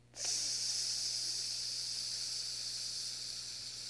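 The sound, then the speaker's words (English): Slow exhale during a breathing exercise after a held breath: one long, steady, airy hiss that starts abruptly and holds at an even level for several seconds. “Now slowly exhale.”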